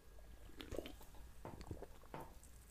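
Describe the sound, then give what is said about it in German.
A faint sip of a drink, with a few soft, wet slurping and swallowing sounds scattered across a quiet background. “Moment, nochmal einen Schluck.”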